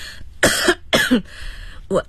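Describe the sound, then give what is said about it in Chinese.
A woman coughs badly, with three harsh, rough bursts in quick succession. The middle cough is the strongest, and the last is short. “我看你的眼睛又红又肿，咳嗽这么厉害，你没事吧？”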